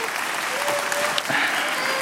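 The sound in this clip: Applause from an audience: dense, steady clapping that holds at an even loudness throughout.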